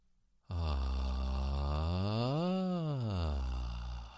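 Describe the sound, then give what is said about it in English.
A breathy siren vocal exercise: one sustained voiced glide with airy breath noise, starting low, climbing smoothly to a peak and sliding back down. It is steady and fairly loud for about four seconds, with no talk. “It's a little bit like the hum, but you're introducing a little bit more breath into the vocalisation this time round.”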